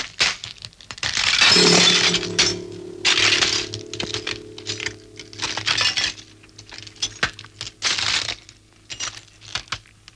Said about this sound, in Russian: Стойко приняв удары, Марк берет девушку на руки. В руках Марка девушка будто неживая. Он идет по осколкам битого стекла.